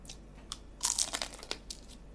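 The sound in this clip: Faint crunching of a bite of crusty sourdough bread with honey: a few crisp crackles, with a denser cluster of crunches in the middle.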